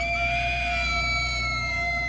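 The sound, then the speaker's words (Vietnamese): Panicked scream in the night, one long, loud, high cry held steady for its whole length, sinking slightly toward the end. “Tiếng ai la thất thanh giữa màn đêm xé toạc đi cái không gian tĩnh lặng.”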